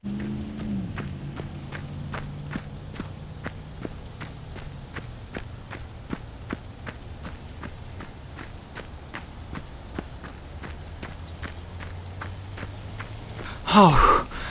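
Running footsteps of a group of joggers on their first kilometre together: a steady, quick rhythm of light thuds throughout over a low hum, ending in a brief louder rustle.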